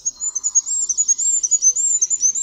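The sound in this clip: Goldcrest song: a very high, thin, rapid series of repeated notes in quick rhythmic phrases, bright and fairly loud, heard alone without other sounds.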